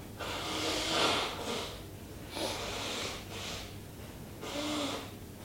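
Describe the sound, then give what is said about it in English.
Forceful nasal exhales of breath-of-fire yoga breathing come in a few broad, hissing surges, each lasting about a second and steady in loudness, with no talking over them. “Powerfully pumping the belly. Don't go too fast with the breath of fire.”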